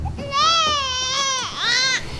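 A baby cries loudly in two sustained, strained wails, with a brief dip in pitch between them.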